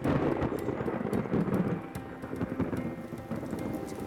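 Heavy rain pours down with a low rumble of thunder, forming a dense, continuous wash of noise that eases slightly midway.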